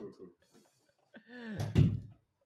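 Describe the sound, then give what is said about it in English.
A door swinging open, ending in one loud thud near the end, while voices chat quietly before it. “your door just opened, by the way. Yeah, it's probably wind.”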